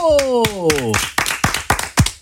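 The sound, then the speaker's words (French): A handful of sharp, separate hand claps from interns at a regional radio station in Occitanie. They follow a brief voice and land in a loose, uneven rhythm. “Celles et ceux que vous entendez vous applaudir, ce sont les stagiaires de cette semaine qui sont à la radio ici à Occitanie.”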